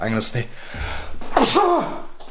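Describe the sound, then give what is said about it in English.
A single sharp sneeze breaks into a person's talking, with speech before and after it. “and just a sneeze for effect there”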